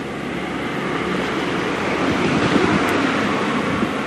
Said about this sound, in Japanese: 大きな通りに出ましたね。県道735号線って言うんですか、これ大きな通りです。片側2車線、